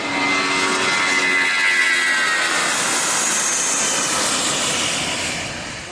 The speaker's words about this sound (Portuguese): Tem uns aviões, quando você decola, parece que tem um catavento de metal em cima. Fica fazendo um... Dura só na decolagem, depois para.